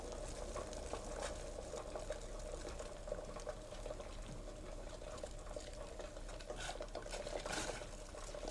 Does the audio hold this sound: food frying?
yes